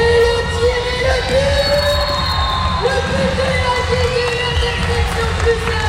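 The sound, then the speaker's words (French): Crowd cheering and children shouting at a popular school soccer tournament at the François Buot school, a dense, continuous roar of excited voices with a man talking over it. “bravo à tout le monde qui a organisé ce tournoi très populaire à l'école François Buot. Beaucoup d'ambiance, hein. Je propose qu'on mette un petit peu l'ambiance qu'il y avait sur place.”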